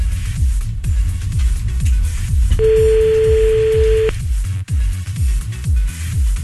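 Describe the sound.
A telephone ringing tone plays as one steady, mid-pitched beep lasting about a second and a half, over loud, beat-driven music.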